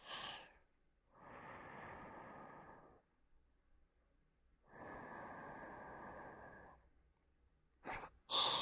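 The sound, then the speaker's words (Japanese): Breath blown softly into the listener's ear, two long, gentle, airy puffs of a couple of seconds each, separated by near-silence, with brief soft breathy sounds at the very start and end. “お耳をふうってされただけで、びくつきすぎでしょ。”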